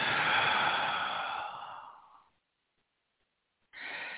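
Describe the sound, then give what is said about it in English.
A deep breath held and released during a guided relaxation exercise: a long, loud, breathy rush that slowly fades out, a pause of silence, and then another breath begins. “And so now we're going to take another deep breath in and hold and release.”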